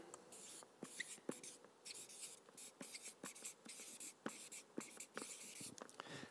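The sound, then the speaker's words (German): Handwriting on paper, faint scratchy strokes of a pen coming in short irregular bursts separated by brief pauses, quiet and with no voices over it. “Und schreibe daher:”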